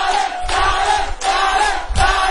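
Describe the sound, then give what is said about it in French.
An audience at a festival in Gabon cheers and applauds a performer called to the microphone, with loud, sustained cheering and yelling voices that rise and fall in surges. “On applaudit pour Darlin s'il vous plaît.”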